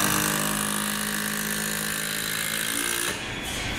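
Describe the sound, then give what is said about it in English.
A power drill drives a long screw into a cedar log, giving a steady, loud whirring drone with a buzzy tone that cuts off near the end, leaving quieter low noise. “it's an actually 4, 4.5 high screw that she's screwing into the cedar log, or it's not a log, cedar log.”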